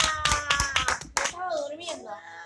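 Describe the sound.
Quick hand claps ring out for a child who found the answer during a church-history lesson, forming a short, sharp burst under voices before talk continues alone.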